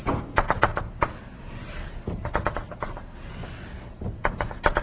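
Tapping and scraping as a closed string is drawn on a board during a physics lecture: a few clusters of sharp, dry clicks separated by quieter gaps.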